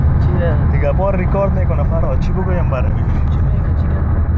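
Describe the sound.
Inside a moving bus, a steady, loud, low engine rumble fills the cabin while a voice talks over it.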